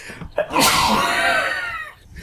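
A single loud, breathy sneeze bursts out sharply, holds for about a second, then trails off quickly into quiet.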